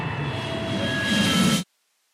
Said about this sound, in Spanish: Abróchense los cinturones porque estamos a punto de despegar.